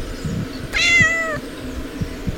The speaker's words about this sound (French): Bah alors, le chat, qu'est-ce que tu fais? Le chat se balade sur le balcon, sur le balcon.